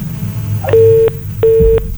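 Telephone line tones as a call-in caller is disconnected: two loud, steady, mid-pitched beeps of equal length, separated by a short gap, over low background noise.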